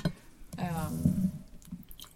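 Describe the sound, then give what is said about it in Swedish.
Coffee being poured into a cup, a faint, short liquid gurgle lasting about a second, with a few soft clicks and knocks before and after. “ska vi ta kaffe? Fast det kanske är kallt med det här. Häll på.”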